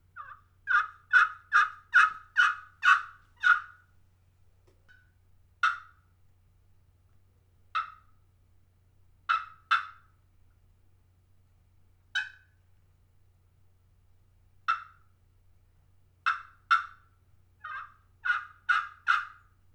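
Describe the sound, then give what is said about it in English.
A copper turkey call in a composite pot with a slate bottom, played by hand, gives a fast run of raspy, high yelps, then scattered single clucks and yelps, and another quick run of yelps at the end. “Kevin over at Ty Custom Calls pointed me to this copper call that is in a composite pot, and it has a slate surface on the bottom. So I picked this call up over there at Ty's table, and I played it.”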